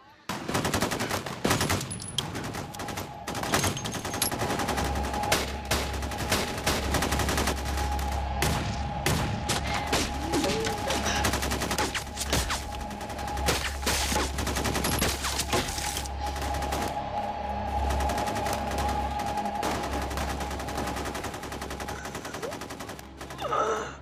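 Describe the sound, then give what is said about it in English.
Heavy gunfire in a police shootout in North Hollywood, with bullets tearing through a car: dense, loud bursts of automatic fire and many rapid shots that continue without a break throughout. “Are literally being ripped apart by bullets. The bullets are going clear through the car.”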